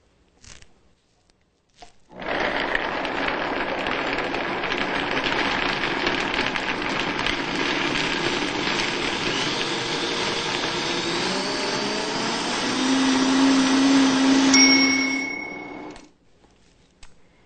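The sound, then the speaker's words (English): A lidded blender runs on high, blending a vegan cheese mixture. After a few small clicks the motor starts abruptly into a loud, steady whirring roar, grows slightly stronger late on, then winds down and stops. “Now place your lid on tightly. And we'll blend on high until the cheese appears to be fully mixed, about 2 minutes.”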